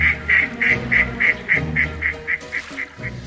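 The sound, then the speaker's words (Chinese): Wild ducks circling over a marsh give a steady, evenly spaced run of loud, nasal calls, about a dozen in three seconds, with no voices. “吉姆在岛上的树林中穿梭，忽然芦苇丛中传来一阵骚动，一只野鸭飞起，其他的野鸭也跟着纷纷飞了起来，在沼泽上空盘旋啼叫。”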